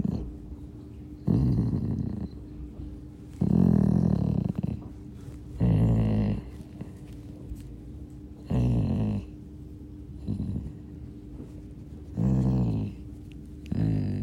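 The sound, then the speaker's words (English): A dog lying on a sofa groans with pleasure as its ears are tickled, recorded up close. Several low, throaty moans rumble out one after another, each separated by a quiet pause. “I tickled Maxwell's ears the other day when he was lying on the sofa, and I put the iPhone really close in. And after every delicate tickle, you can hear his groan of ecstasy.”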